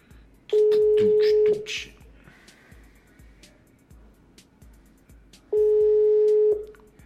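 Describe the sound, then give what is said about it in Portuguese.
Ringback tones on a telephone line as a call is placed to a listener: two long, steady, mid-pitched buzzing tones, each about a second, separated by a pause of several seconds. “Vamos, vamos ligar aqui para um para um ouvinte.”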